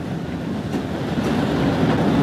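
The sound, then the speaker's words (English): A steam train pulls slowly out of a station as a continuous low, rolling rumble with a noisy hiss above it. The sound swells slightly louder as it goes on, and no voices are heard. “Moments later, it steamed slowly out of the station.”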